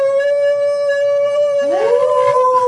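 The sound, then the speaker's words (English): Eerie howling from the open mouths of stone pillars in a fantasy dungeon game: a loud, steady, droning wail that is joined midway by a second voice rising in pitch and layering over the first. “Within the pillars open their mouths and unleash a chorus of disturbing howls and shrieks.”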